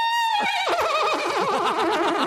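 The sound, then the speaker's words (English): A horse neigh played as a sound effect inside a car: one loud whinny, a high tone that quickly breaks into a shaky, wavering quaver and holds for about two seconds, with no other sound. “the next song were these sound bites I had bought off the internet, and one was a horse.”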